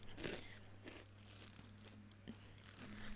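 Crunching of double cheddar Goldfish crackers being chewed: a few faint, crisp, crackly bites spaced unevenly over a low steady hum.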